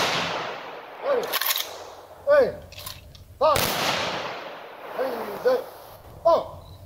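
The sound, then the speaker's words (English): Rifle volleys crack out in honor of an army veteran, a couple of sharp, loud bursts, each following spoken firing commands, with talk between them. “we honor his service. Ready. Aim. Fire. Ready. Aim. Fire. Ready. Aim.”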